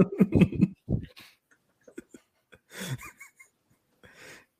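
Loud, forceful breathing through the nose: a few snorting huffs, the first ones with a rough, voiced grunting edge, then two separate airy blasts with short pauses between them.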